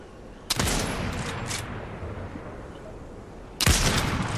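Sniper rifle shots in a video game: two loud, sharp reports at the start and near the end, with a fainter crack between them, over steady game noise.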